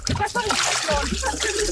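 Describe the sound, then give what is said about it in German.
A person slides into a 28-degree swimming pool, setting off a sloshing splash of water. Voices talk over the splashing. “Ich rutsche runter ins 28 Grad warme Becken.”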